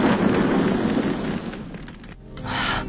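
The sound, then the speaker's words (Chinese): A car exploding in midair as it drives off toward the sea: a loud, deep, rumbling blast that gradually decays over about two seconds, followed by a rising hiss of noise near the end. “可没等车完全掉进去，就在半空中爆炸了。”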